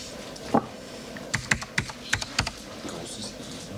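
Computer keyboard typing, including a press of the Escape key: a handful of sharp, separate key clicks spaced irregularly over a quiet background.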